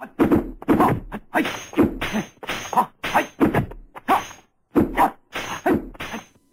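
Hard wooden staffs clash in a fight scene: many sharp whacks and thuds come in quick, irregular bursts, loud and punchy throughout.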